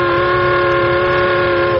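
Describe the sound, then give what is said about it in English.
A loud steamboat-style whistle: a steady, sustained multi-tone chord held at constant pitch, cutting off just before the end, with no voices. “Oh, I'm so happy I could whistle like a steamboat. And I'm so happy, I could whistle like a steamboat, too.”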